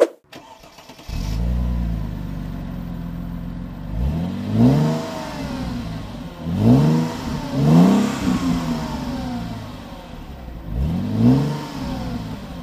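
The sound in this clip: A car engine, a one-of-a-kind configuration, fires up with a low burst and settles into a rumbling idle. It is then revved several times, each throttle blip sweeping up in pitch and falling back.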